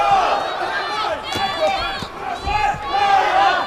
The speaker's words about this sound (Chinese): 我们现场也有朱帅的粉丝团啊，在为朱帅加油助威。